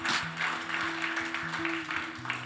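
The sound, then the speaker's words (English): A church audience claps together to welcome new members into their community. The clapping is steady and moderately loud, with sustained low tones running underneath. “Come on, throw your hands together and welcome those who just came into the family of God.”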